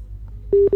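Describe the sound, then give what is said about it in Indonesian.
A telephone call's still-connecting tone: after a moment of low hum, two steady, mid-pitched tone bursts sound loudly, separated by a brief gap, with no voices. “Masih menyambungkan rupanya Mama Alfi”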